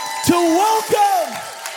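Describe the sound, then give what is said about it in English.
A church audience shouts praise to God: several raised voices cry out and overlap in loud, drawn-out calls above a steady crowd roar that fills the moment. “Somebody shout unto God and give him some praise”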